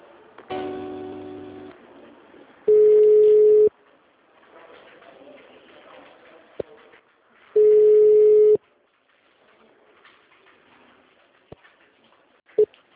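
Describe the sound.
Telephone line tones while a call is transferred: two long, steady, mid-pitched beeps, each about a second long, separated by quieter line hiss.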